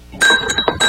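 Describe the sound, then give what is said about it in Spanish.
A spoon is stirred in a cup, giving a few bright, quick clinks against the cup's side in an uneven rhythm over about a second. “Cuando meneas la taza con la cuchara”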